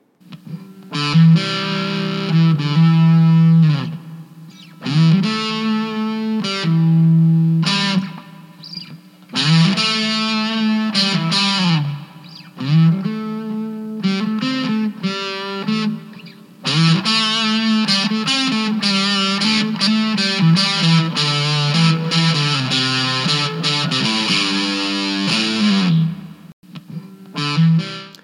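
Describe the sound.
Electric guitar played through a fuzz effect in expressive single-note lines, with bent, sliding notes and sustained phrases separated by short gaps, loud and alone.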